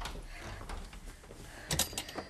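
A door opening or closing in a 1961 German radio drama: a brief, sharp clack of the latch after a quiet stretch, with a softer knock just after.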